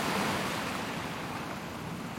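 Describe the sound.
Sea waves wash onto a salt-water shore in a steady, unbroken roar of surf. The hiss stays even and fairly loud throughout, with no voices.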